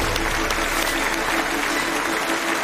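Loud audience applause welcomes two physics researchers onto a lecture stage, a dense, steady clapping that holds evenly from start to finish.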